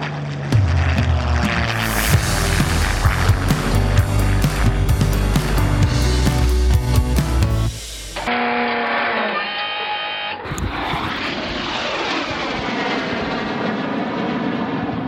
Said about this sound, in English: that is the sound of the Red Arrows. We're at RAF Scampton, and the first foreship of the new season for 2021 have just taken off on a practice session